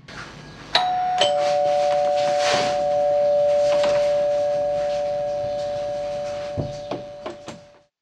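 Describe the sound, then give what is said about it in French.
A doorbell rings at a front door as a two-note chime, a higher tone and then a lower one, its ring held and slowly fading over several seconds. A few short knocks follow near the end. “Je sonne ? Oui, vas-y.”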